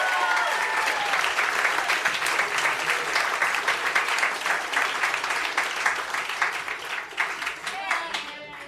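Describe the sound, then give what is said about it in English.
Warm audience applause as Dan Harmon is welcomed onto the stage at a live event to read from his book. The clapping is dense and steady for the whole stretch and eases slightly at the end. “Everybody give it up for Dan Harmon. Let him hear it.”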